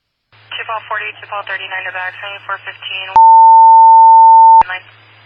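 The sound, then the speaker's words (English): A steady electronic telephone tone sounds as one unbroken, clear mid-pitched note lasting about a second and a half. It cuts in sharply after a stretch of talk, and speech resumes faintly as it ends. “Oh, my phone's ringing. Hold on.”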